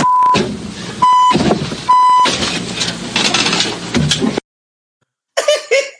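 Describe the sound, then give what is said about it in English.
Three short, steady mid-pitched electronic beeps cut in at roughly even intervals between bursts of loud, rough noise, followed by a stretch of silence and then a brief voice. “Beep, beep, beep, beep, beep.”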